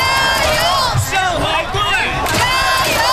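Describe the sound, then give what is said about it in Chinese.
Football fans at a public viewing at Xuhui Sports Park cheering on Shanghai's team in an away match: a loud, continuous roar of massed shouting and chanting voices that holds steady throughout. “听着现场这排山倒海般的加油声，你很难想象这只是一个第二主场。”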